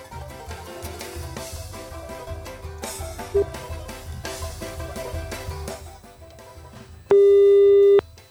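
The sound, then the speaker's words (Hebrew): A telephone call tone sounds as a listener is dialed live on a radio show: one loud, steady, buzzing tone lasting about a second near the end, after several seconds of background music. “ולכן אנחנו נחייג עכשיו לאחד מהמאזינים במסגרת הפינה שנקראת שיחה בהפתעה”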